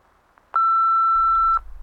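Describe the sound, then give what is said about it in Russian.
A single steady, mid-pitched answering machine beep lasts about one second after near silence. A low line hum follows as it ends. “Алло, говорит автоответчик. Оставьте, пожалуйста, сообщение после гудка.”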